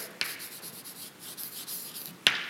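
Handwriting scratches steadily across a surface, a soft continuous rasping texture with two sharp taps as the writing tool strikes down, one near the start and one near the end; no voices.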